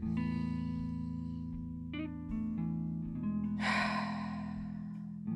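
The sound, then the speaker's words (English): One deep breath drawn in and let out, a soft airy rush rising briefly over a quiet, steady droning musical bed. “Take a deep breath. As I take another one with you,”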